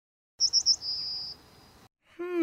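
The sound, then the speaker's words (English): A yellowhammer's call: three quick, high chirps followed by a long, thin, sustained note that fades out, then a voice begins at the very end. “was said to be inspired by the call of the yellowhammer bird, which sounds like this”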